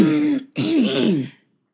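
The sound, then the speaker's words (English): A person clears their throat as a playful joke imitation of a cartoon moment: two gravelly, voiced bursts, a short one and then a longer one with wavering pitch, followed by silence. “Has to clear the throat. I got to get ready for this.”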